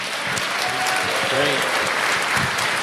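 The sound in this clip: Audience applause at a church gathering with a children's choir: a steady, dense wash of clapping from a crowd that holds at an even level throughout, with a brief voice rising faintly through it midway.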